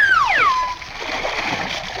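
Splashing water as people are thrown into a swimming pool: a broad, rushing wash of noise that lasts about a second and a half, preceded by a brief, high, falling tone.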